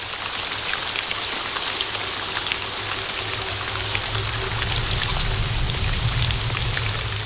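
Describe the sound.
Pelting rain falls steadily in woods, a dense, continuous hiss that holds an even loudness throughout, with no voices.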